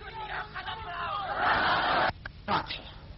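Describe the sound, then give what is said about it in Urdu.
A crowd at a religious rally shouts a slogan in unison: a loud, massed roar of voices that swells and holds for under a second, breaks off sharply, then returns in a shorter burst. “تم قدم بڑھاؤ، اللہ تمہارے ساتھ ہے، یہ نعرہ لگائیے”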